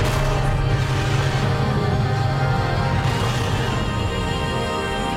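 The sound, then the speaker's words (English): Attacks in a Pokémon battle video game cutscene make a loud, dense, steady roar of rumbling effects that holds without a break for the whole stretch. “We're gonna have a Pokemon battle. Okay, so they begin to attack each other, but it's in cutscene.”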